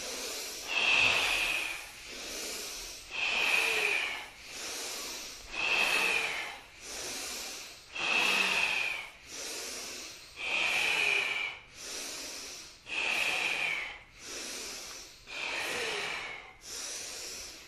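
Forceful breathing exercise during a kriya meditation: many strong, hissing breaths repeat in a steady rhythm, some louder and some softer, with no talking.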